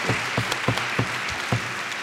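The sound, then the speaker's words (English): Audience applause welcoming a panel of speakers, including a university biology lecturer, at a public discussion event: steady, dense clapping that holds an even level for the whole moment, with no voices. “So let's have a big round of applause for them, please, for coming.”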